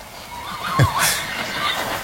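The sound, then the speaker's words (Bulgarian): A horse being led on a leash gives a single wavering whinny that rises and then falls in pitch, clear above a low, steady background noise. “Явно някой държан на каишка е решил да разходи кон.”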